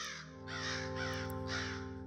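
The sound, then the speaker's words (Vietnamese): Crows cawing overhead on a cold night: a series of loud, harsh, rasping caws over a steady low droning tone. “Từ trên tầng không, tiếng quạ, tiếng chim lợn bắt đầu kêu lên ầm ĩ như đòi ăn chia xác.”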